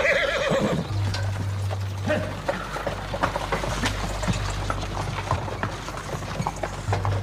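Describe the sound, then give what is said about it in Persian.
A horse-drawn carriage: a horse whinnies briefly at the start, then hooves clatter in a steady clip-clop over a low, continuous drone. “خواجه صندوق رو داخل کالسکه میذاره. سیاوش و کفایت سوار کالسکه میشن. مالا در کالسکه رو میبنده.”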